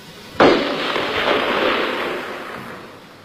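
A burst of gunfire sound effect in a dramatized wartime scene: a sharp loud onset followed by a sustained crackling, rattling blast that slowly fades over a few seconds, with no talk.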